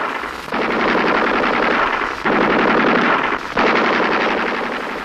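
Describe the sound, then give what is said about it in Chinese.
Enemy sentry machine gun fire in wartime: three long, sustained bursts of rapid automatic shots, loud and dense, separated by brief gaps. “不，这是敌人值班机枪。”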